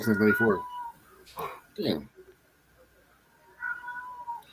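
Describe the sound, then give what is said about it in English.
A cat meows a few times in short, clear, mid-pitched calls, with people talking around it. “I mean, you can hear the shit out of your cat, man.”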